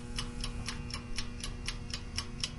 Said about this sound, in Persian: ساعت گاز رو کوک میکنم که یادم نره